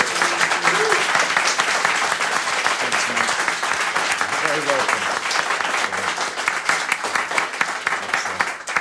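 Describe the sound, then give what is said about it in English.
Audience applause at a meeting, a loud, steady wash of many hands clapping that carries on without a break for the whole stretch. “Everybody, please give Mike a hand in the usual way.”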